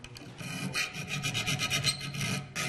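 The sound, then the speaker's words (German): Careful filing and sanding in a stucco plasterer's training workshop: many quick, rhythmic rasping strokes, bright and gritty, running steadily with no talk. “Da wird mit größter Sorgfalt geschliffen und gefeilt.”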